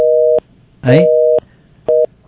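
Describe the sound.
A telephone busy tone sounds after a caller's line was cut. Three loud, steady beeps are separated by short gaps, and a brief voice breaks in just before the second beep.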